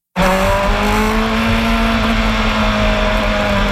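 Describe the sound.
IndyCar race cars at the Markham circuit near Toronto: a loud, continuous engine roar with steady whining tones that starts abruptly and holds throughout, with no talk.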